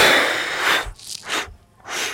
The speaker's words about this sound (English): And we exhale to fold down. Blasting the air out as you fold.